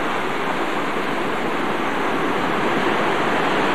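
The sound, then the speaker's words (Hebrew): Ocean waves surge up a bay in California and pass under a bridge. A loud, steady rushing roar holds without break or change in level. “פעמיים מגיעים גלים מטפסים למעלה במפרץ ועוברים מתחת לגשר שראינו קודם, ממש כאילו מטפסים כמה מטרים.”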